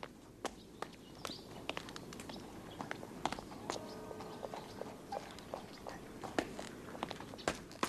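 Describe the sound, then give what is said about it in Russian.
Footsteps of someone climbing a staircase in a film scene: many faint, irregular knocks and taps over a quiet background. “Саша поднимается по лестнице.”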